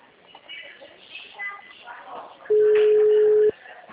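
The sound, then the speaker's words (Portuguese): A telephone ringing tone sounds as a call is placed: one steady, mid-pitched beep lasting about a second, louder than the faint murmur that comes before it. “Tô ligando.”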